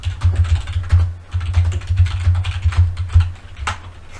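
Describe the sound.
A Google search being typed on a computer keyboard: many quick, clattering keystrokes in an uneven rhythm, with no talking.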